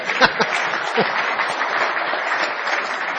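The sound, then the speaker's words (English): An audience applauds to welcome a guest speaker, with continuous, even clapping and a few sharper claps near the start. “You want to welcome him? Amen. Let's hear it for Reed, okay?”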